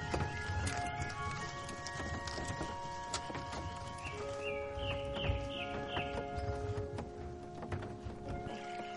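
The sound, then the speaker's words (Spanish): Hooves clip-clop as a horse-drawn carriage travels along a road between lagoons, a steady rhythmic beat mixed with sustained tonal sounds. “El carruaje circula por un camino entre lagunas.”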